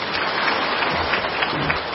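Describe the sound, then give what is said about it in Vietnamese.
A brief round of applause from a group, steady clapping lasting about two seconds at even loudness. “đúng với ý tôi thì tôi tự nhiên cho một tràng pháo tay”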